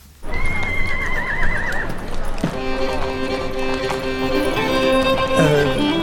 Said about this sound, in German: Da drüben auf der Koppel. Sind das die Pferde? Das sind die Pferde, ganz genau.